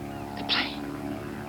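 Steady low drone of an airplane flying overhead over the ocean, about to land, a faint, even hum with a constant tone that holds throughout and barely changes.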